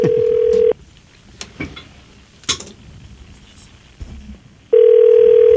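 A telephone number being dialed on a phone line: a steady electronic tone, then a run of sharp clicks and taps, and then the steady tone returns loudly at the end.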